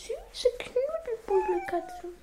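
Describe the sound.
A cat on a sofa being petted gives a series of short, tonal mews and whimpering calls, alternating with brief pauses.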